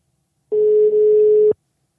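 A single telephone ringback tone plays while a call is placed to a cycling team director. It is one steady, mid-pitched beep lasting about a second, heard alone with no voices.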